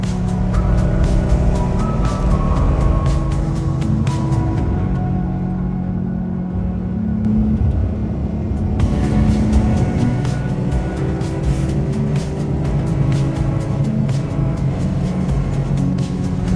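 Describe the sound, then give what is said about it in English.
A car driving along a road, its engine and tyres producing a loud, steady drone that continues throughout, easing briefly partway through before returning to full strength. “I've been driving blindly for more than half an hour.”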